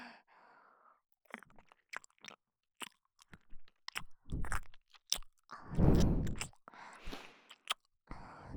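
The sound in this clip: Close-to-the-ear chewing and wet mouth sounds in an ASMR roleplay, with irregular bursts of crunching, biting and soft breaths, quiet at first and then louder.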